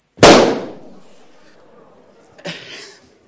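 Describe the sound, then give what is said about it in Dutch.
A balloon bursting, a party-style balloon popped on purpose: one loud, sharp bang that fades out slowly, followed about two seconds later by a shorter, softer burst of noise. “Maar er is één ding wat ik met die ballon moet doen. Ik weet niet of ik dat mag hier.”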